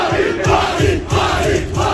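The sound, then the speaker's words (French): Dozens of football fans chant and cheer at Nice airport as they welcome back a returning player. The loud, rhythmic crowd chant pulses in steady repeated waves throughout. “Accueillis en héros, ils étaient des dizaines à l'aéroport pour le retour du sauveur de la saison passée.”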